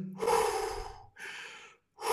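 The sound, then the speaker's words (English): Deep, forceful breaths drawn in and pushed out without pause during a rapid breathing exercise of thirty deep breaths, with two long rushing breaths followed by a third that begins just before the end. “you breathe 30 times in and out without a break, like deep in, deep out, deep in, deep out, 30 times”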